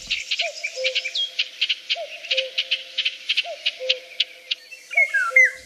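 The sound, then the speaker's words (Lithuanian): A golden oriole whistles four short fluty phrases at an even, unhurried pace, each a quick rising then level note, over a continuous high pulsing chirr of insects. “Girdite? Šių metų volungė švilpoja.”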